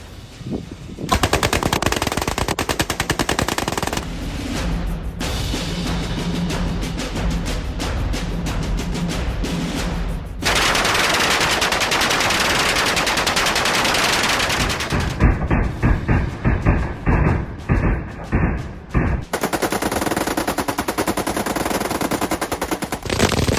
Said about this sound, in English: That was pretty cool for the first wave, but what's more American than one M60? Two M60s, twins! Twin Rambo!